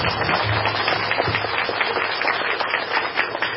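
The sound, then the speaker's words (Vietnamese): A Buddhist audience at a monastery in Canada applauds, producing a thick, continuous patter of many hands clapping that stays at an even level from start to finish. “Vỗ tay đi.”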